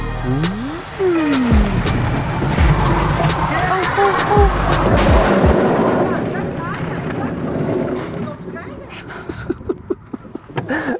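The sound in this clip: A golf cart that drives only forward hums steadily across a golf course, its motor mixed with rushing wind noise while people talk. Scattered clicks and knocks follow near the end.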